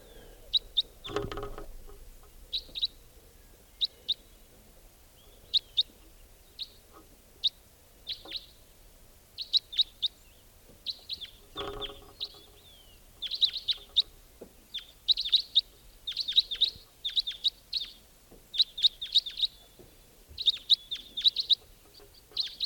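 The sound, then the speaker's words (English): A wild white-winged crossbill calling in the early morning, with many short, high chirps in loose bursts throughout and a couple of dull low thumps. “Wild white-winged crossbill there.”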